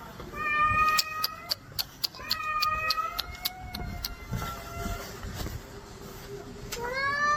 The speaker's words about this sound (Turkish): Yürüyen merdivene patisini sıkıştıran kedi acı içinde yardım bekledi.